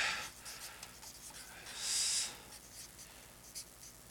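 Faint scratching of writing by hand with a pen on paper: a few short strokes, with one longer, brighter scratch in the middle.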